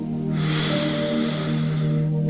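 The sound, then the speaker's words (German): A long, steady breath drawn in through the nose during a guided breathing exercise, a soft airy hiss that holds evenly for about two seconds. “Atme nochmal durch die Nase ein”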